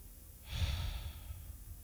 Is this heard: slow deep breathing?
yes